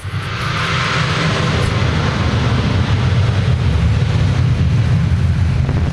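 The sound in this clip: Aircraft engines roar during takeoff, a broad, loud, steady rumble that swells over the first second and then holds constant without a break.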